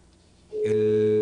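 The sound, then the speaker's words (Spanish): A telephone tone from a call being dialed starts partway through and holds as a steady, loud electronic tone with layered pitches, no voices. “Bueno, no me cuelgue, vamos a realizar la marcación.”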